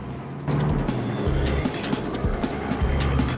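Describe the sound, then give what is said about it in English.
Car engine noise as a car reverses, brakes and speeds off from the docks toward the Mersey; a steady, loud mechanical rumble starts abruptly after a brief quiet moment and continues throughout. “Elmo reverses the car, brakes sharply, then speeds towards the Mersey.”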